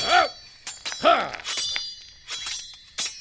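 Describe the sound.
Swords clash in a fight with several sharp, ringing metallic strikes in an uneven rhythm, mixed with short shouted grunts from the fighters.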